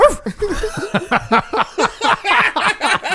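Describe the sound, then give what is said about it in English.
A crowd imitates dog barks together, a rapid run of many short, hoarse 'arf' bursts. Each bark drops in pitch, and the voices overlap loudly and fairly evenly. “Make them bark. everyone go,”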